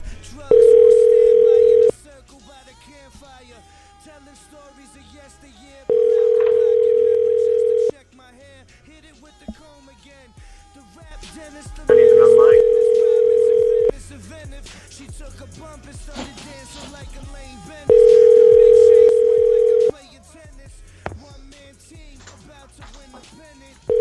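A telephone line tone heard through a dialing machine sounds as steady, loud beeps about two seconds long, repeating at a regular interval of about six seconds. Four full tones and the start of a fifth are heard, with faint low sounds between them.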